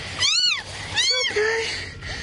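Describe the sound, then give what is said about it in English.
A kitten meowing after being rescued from tornado debris at a destroyed trailer park: two loud, high, plaintive meows close together, followed by a softer, lower cry. “He found a kitten under the debris that destroyed the trailer park that we just showed you.”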